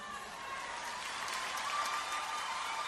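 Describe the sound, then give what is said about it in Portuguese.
An audience at a live music event bursts into applause for a performer. The clapping is steady, dense and moderately loud, holding evenly throughout. “Pira, outra salva de palmas.”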